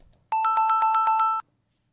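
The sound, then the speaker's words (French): Ringing tone of an outgoing phone call to someone in Crete: one burst of rapid, pulsing electronic warble at a steady pitch that lasts about a second, loud and alone, with no voices. “Maintenant, le temps est venu d'essayer d'avoir Lucie et Ellie qui se trouvent à Crète.”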